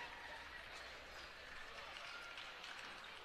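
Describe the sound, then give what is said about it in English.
Home fans cheer and roar in a dense, steady wash of voices and clapping after a tight high school basketball game in which Bishop LeBlond beat the Maryville Spoofhounds. The sound is fairly faint and stays even throughout. “The Bishop LeBlond faithful cheering, going crazy, as that was a very tight, tight game.”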